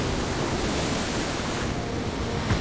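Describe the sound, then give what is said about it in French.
Sea waves rising and surging, a loud, steady rushing wash mixed with wind that continues unbroken from start to end. “la mer décida de s'interposer. Il était hors de question qu'elle laisse le capitaine accoster. Immédiatement, des vagues se levèrent,”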